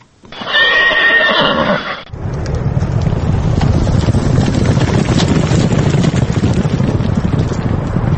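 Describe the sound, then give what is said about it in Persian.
A racehorse gives a loud, clear whinny at a horse race in Dushanbe featuring Tajik and English breeds, then a dense, sustained rushing noise takes over and continues steadily to the end. “در این مسابقه اسب‌های ذاتی تاجیکی و انگلیسی شرکت کردند.”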